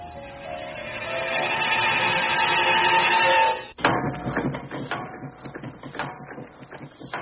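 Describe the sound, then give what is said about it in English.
A magic mill grinds out salt with a steady mechanical whirring that builds for several seconds, then gives way to a rapid, uneven rattling clatter. “Look, it's doing it. It's grinding out salt. It's better salt than I ever got at the mines. It's covering the whole floor.”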